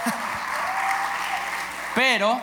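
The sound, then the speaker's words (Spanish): Audience applause, a steady wash of many hands clapping for about two seconds, after which a man begins speaking. “Y que, un aplauso por eso, por favor, claro.”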